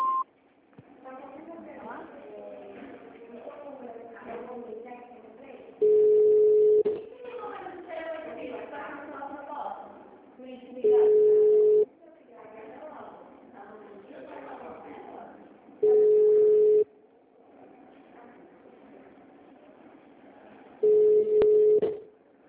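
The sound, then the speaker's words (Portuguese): An automated phone system plays four steady, identical beep tones at regular intervals before an extension is dialed, each tone set between stretches of a recorded voice speaking. “Atendimento digital. Após o sinal, digite ramal ou aguarde.”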